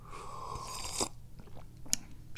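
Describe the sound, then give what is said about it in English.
Hot tea being sipped in the morning, with two short, faint slurping sips over a low, steady hum. “Those are the first two sips of tea this morning, and I'm going for a third.”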